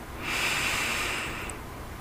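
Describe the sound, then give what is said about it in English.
A single deep breath drawn in through the nose is heard alone. The soft, airy rush of air swells and lasts about a second before fading out. “I invite you to sit or lay comfortably. Take a deep breath in”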